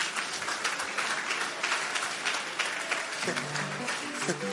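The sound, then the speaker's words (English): Audience applause at a church service: dense, steady clapping throughout, with a voice rising over it near the end. “Put your hands together for...”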